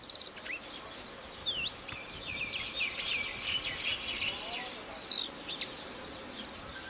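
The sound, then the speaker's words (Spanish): Faint song of Radde's accentor (Prunella ocularis), a small, discreet Caucasus bird, made of short, soft, quick high notes in scattered bursts that thicken into brief trilling phrases. “Ahí se le oye bajito. Él está. Está cantando el acentor de Rat.”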